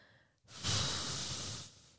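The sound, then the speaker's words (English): A single deep breath in: one long, airy inhalation lasting over a second. It is clear and fairly loud, with no talking over it. “take a deep breath. Let's do it together. Inhale.”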